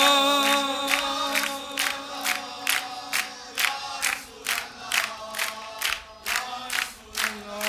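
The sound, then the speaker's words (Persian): A crowd at a religious gathering claps in unison to a steady, quick beat, with sustained chanting voices carrying over the rhythm. “این صدای این جمعیت، این دست زدن مال این جمعیت”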